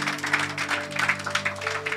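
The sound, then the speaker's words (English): Church audience clapping together, a steady run of many brisk claps over sustained low held tones. “Come on, let's give a clap offering to Jesus.”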